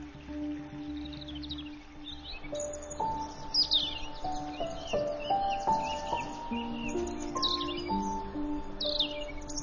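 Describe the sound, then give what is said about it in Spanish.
Robins and nuthatches sing courtship songs in a spring forest in the Harz mountains. Many overlapping whistled notes and short high chirps and trills continue throughout over a steady soft background hiss. “Los coros de cortejo de petirrojos y trepatroncos resuenan por todo el bosque.”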